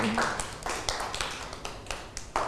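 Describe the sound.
Children in a classroom clapping for a classmate: a loose scatter of sharp hand claps at uneven intervals, fairly soft and thin rather than a full ovation.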